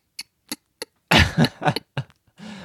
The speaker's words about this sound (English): A girl from public school taught me how to scratch the back of your throat by going.